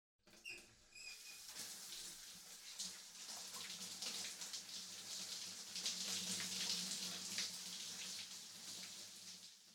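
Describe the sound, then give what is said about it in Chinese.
Warm water runs steadily in a bath while a body is rinsed. It makes a continuous, bright splashing hiss that swells slightly toward the middle, with a few small clicks at the start. “替你冲洗身子。 感觉舒服吗？温暖的热水使身心都不断的放松呢。”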